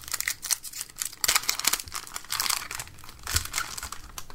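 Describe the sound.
A trading card booster pack wrapper being torn open, with dense crinkling and crackling foil that runs for several seconds, broken by a few sharper ripping bursts, and no voices.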